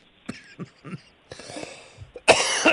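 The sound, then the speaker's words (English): Coughing and choking from a man caught mid-conversation: a few short, sharp coughs, then harsher, raspier bursts that end in a loud, sustained hacking fit. “I didn't mean to make you choke.”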